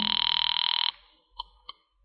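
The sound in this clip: A telephone rings as a radio drama sound effect: one long, loud, rapidly trilling bell burst, then quiet with two brief faint blips.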